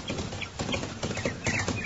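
Hoofbeats of a rider's horse coming fast along a road, a steady rapid clatter of hooves that stays fairly loud throughout, with no voices.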